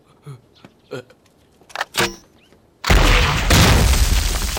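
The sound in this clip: A gunshot fired at a target: a few short voice sounds, then a sudden loud blast that holds as a rough, heavy rumble to the end.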